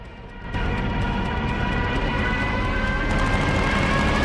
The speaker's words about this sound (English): As the soldiers on the mole cower, Commander Bolton remains steadfastly staring at the rapidly approaching bomber.